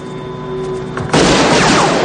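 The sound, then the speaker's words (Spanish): A single loud pistol shot in a police action film scene bursts out suddenly about halfway through, after a quieter tonal background, and leaves a dense, noisy tail that lingers to the end. “Nick dispara, pero Strom se aparta.”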